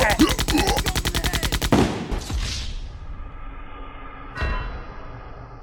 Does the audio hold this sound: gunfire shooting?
yes